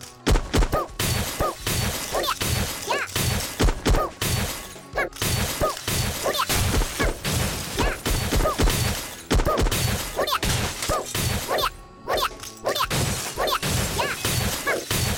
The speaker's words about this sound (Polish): Bo tutaj są te szkła, po których trzeba skakać. W ogóle chyba da się niszczyć te ściany, o ile mi się wydaje.